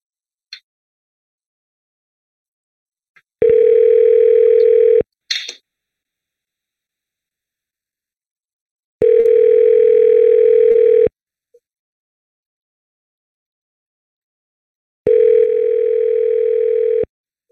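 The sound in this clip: Telephone ringback tones sound while a number is being called: three long, steady buzzing tones of about two seconds each, separated by longer silences and a few brief clicks.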